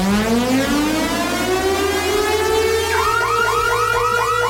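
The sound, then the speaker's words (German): A radio contest alarm for winning festival tickets, a loud rising siren-like wail that sweeps upward in pitch, then switches to rapid repeated whooping pulses over a steady low buzzing tone. “Und wenn ihr diesen Alarm hier hört”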